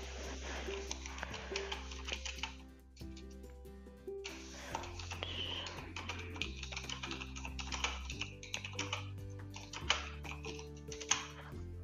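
Rapid computer keyboard typing as a message is written, many quick light clicks in uneven bursts over steady background music.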